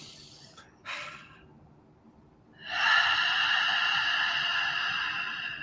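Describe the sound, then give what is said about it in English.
A deep breath taken during a closing relaxation moment: a brief airy intake early on, a pause, then a long, steady rush of breath that lasts several seconds and slowly tapers, with no talking. “I'm going to ask everybody to take a deep breath.”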